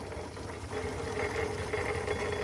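A scaled-down, coal-fired Foden steam wagon engine chugs with a steady, loud mechanical rumble and a dense knocking rhythm that runs throughout without a break.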